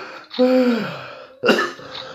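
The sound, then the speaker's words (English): A person coughs: a harsh, voiced throat-clearing cough followed by a second short, sharp burst, loud and alone with no talk. “see, I'm coughing how bad it was.”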